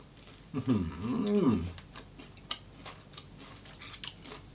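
Crunchy chewing of khanom khrok, a Thai coconut rice pancake that is crisp outside and soft inside, eaten with sugar. A brief voiced murmur comes first, then a few faint, crisp bites and chews.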